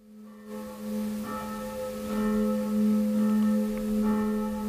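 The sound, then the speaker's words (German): Evening church bells ring in the southern district of Nuremberg, a sustained, resonant humming tone with a few fresh strikes swelling over it, steady and moderately loud, with no talk. “hören jetzt hier aus Nürnberg in der Südstadt das abendliche Glockenläuten”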